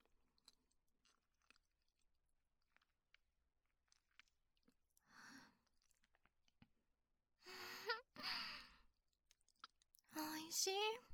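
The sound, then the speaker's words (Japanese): Soft chewing while eating mitarashi dango: faint wet clicks and bites over near silence, followed by a few brief, louder murmured voice sounds. “じゃあ、私はみたらしいただこうかな。いただきます。”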